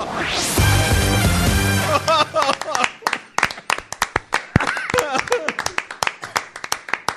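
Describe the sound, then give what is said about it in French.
Applause from an audience: a loud burst that starts with music, then turns into scattered, uneven hand claps that thin out and continue in irregular bursts, with voices speaking over them. “Applaudissements oui.”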